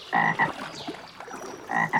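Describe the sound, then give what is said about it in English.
Frog croaking in short, loud, throaty bursts, two croaks in quick succession near the start and another close pair at the end, with a quieter stretch of faint background between them. “We're taking photos of frogs.”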